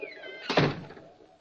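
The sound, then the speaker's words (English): A door being shut as a radio drama sound effect: one dull thunk, fairly faint, that fades out quickly. “Shut the door behind you.”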